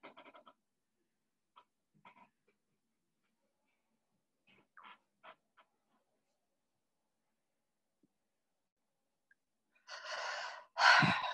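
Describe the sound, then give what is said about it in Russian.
A deep breath drawn in and let out through the mouth during a guided breathing exercise, arriving as two loud airy bursts at the end, the second stronger, after long near-silence broken by a few faint small sounds. “Глубокий вдох и глубокий выдох. Вдох хоть носиком, под ротиком. Но выдох обязательно ртом.”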